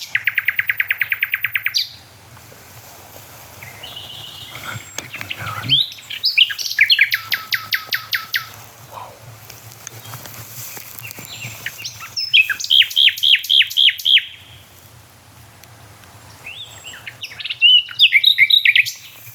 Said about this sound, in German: Also ich stehe jetzt bei der Hotspot Nachtigall. Und das ist auch die von der ersten Aufnahme. Das ist die, als allererstes hier ankam.